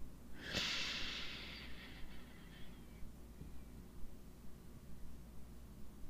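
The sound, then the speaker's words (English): A deep breath is drawn in during a guided meditation, a single soft airy rush that starts abruptly and fades away over about two seconds, then faint steady hiss remains. “Let's do it again. Come on, let's take that breath all the way down to the feet.”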